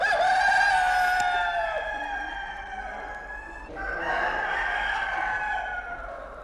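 A rooster crows, played as a sound effect: a drawn-out, harmonic-rich call, then a second crow after a short gap, heard alone without talk.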